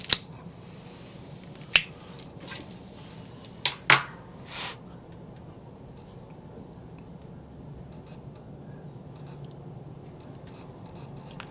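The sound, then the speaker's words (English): Sharp clicks from a Calibri V-cutter cutting a deep V into a box-pressed cigar: a few brief, crisp snaps separated by quiet pauses, with no talk. “for box press, I just enjoy a V-cut. So this, I love these Calibris because they cut really well, and they cut a deep V-cut too. So I'm going to use that.”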